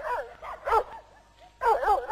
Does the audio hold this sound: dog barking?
yes